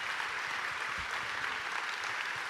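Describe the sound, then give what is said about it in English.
Audience applause welcomes a guest speaker at a Memorial Day weekend church service as people are asked to stand. It is a steady, dense clapping texture with no pauses across the whole clip. “Come on, give him a big hand. Let's all stand up. Let's welcome him today.”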